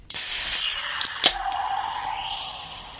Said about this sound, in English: But let's go ahead and crack open this vanilla nitro Pepsi.